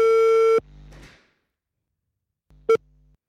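A telephone busy signal while placing a call: a steady electronic tone cuts off abruptly, followed by faint clunking noises, a pause, and one short repeat of the beep.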